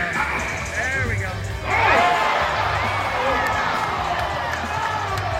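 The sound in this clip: Crowd and teammates roar and shout as they rush the basketball floor after a one-armed player's dunk. The cheering is loud and sustained, with excited voices rising above a steady wash of crowd noise.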